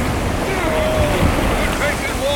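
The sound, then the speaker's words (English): Loud, steady rushing of surf and wind around a small boat overloaded with five men and cargo as it heads into the breakers. The roar is continuous, with no distinct single wave impacts. “We'll be sunk to the bottom after one wave. And here they come. Brace yourselves.”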